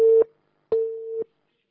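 Telephone line tones of an incoming call: two steady, mid-pitched beeps, a short one and then a longer one after a brief pause, sounding alone with no talk.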